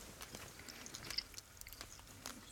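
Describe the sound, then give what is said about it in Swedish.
Faint chewing of a cube of soft, fatty, creamy cheese about two centimetres across together with a similarly sized dried strawberry, eaten with the fingers; many soft, irregular mouth clicks and smacks with no talking. “Det är ungefär 2 centimeter stor ostbit och en torkad jordgubb som är ungefär lika stor. Du kör, jag äter med fingrarna”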